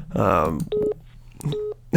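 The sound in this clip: A mobile phone sounds repeatedly, giving two short electronic tone bursts with a clear steady pitch. A voice speaks briefly before the first one.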